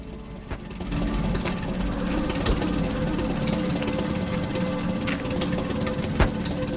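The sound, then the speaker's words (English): An old, grimy petrol-powered generator runs with a rough, spluttering engine drone that holds steady and loud, broken by occasional sharp knocks. “Rounding the corner of a house, he discovers a spluttering petrol-powered generator.”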